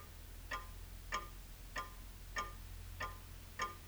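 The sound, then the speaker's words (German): A clock ticks faintly and evenly, with six crisp ticks at a slow, regular pace over a low steady hum. “Wenn du ganz still bist, kannst du sie ja ticken hören.”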